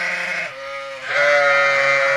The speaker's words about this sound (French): Ces deux béliers boulonnais de 9 mois et 5 ans assurent la reproduction de l'espèce auprès de 200 brebis avec 6 de leurs congénères.